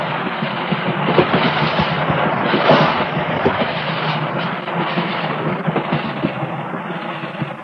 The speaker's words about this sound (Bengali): কি ট্রেন থেমে গেল? এই থ্রু গুডস ট্রেন তো ওয়াটারিং স্টেশন ছাড়া থামে না।